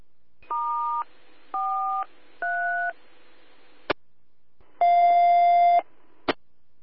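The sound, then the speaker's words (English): Touch-tone dialing to call a dispatcher over the radio. Three short dual-tone beeps come first, then a click and one longer tone, and a final click. “I'll dial up the dispatcher and see what they can do.”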